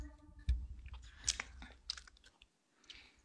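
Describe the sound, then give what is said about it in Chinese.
Someone chews bread in faint, soft bites with a light crunch, a few irregular chewing sounds separated by quiet pauses. “好了好了好了，好好吃你的面包吧。”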